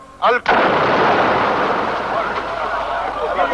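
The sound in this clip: A bomb explodes at a political rally in Milan: a sudden, heavy blast lands abruptly and gives way to a loud, sustained roaring rumble that slowly tapers off.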